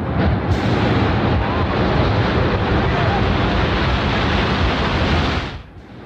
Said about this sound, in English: Listen to the sound of a large explosion right before the South Tower begins to fall.